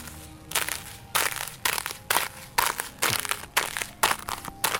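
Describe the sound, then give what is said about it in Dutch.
Thin ice on a small puddle breaking under a stamping foot: a run of crisp, crunching cracks in a steady rhythm, each burst sharp and fairly loud, with quiet gaps between. “Wat is dat toch voor een kinderlijk geluk dat je dat ijs door wil trappen.”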